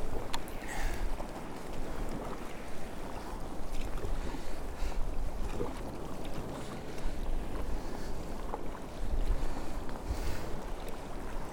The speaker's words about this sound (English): Making my way out. And the wind's strengthening as well.